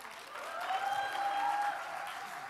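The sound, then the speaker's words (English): An audience cheers and claps to welcome a pastor onto the stage, a dense, continuous wash of applause that swells gently in the middle and stays fairly even throughout. “Let's give him a shout.”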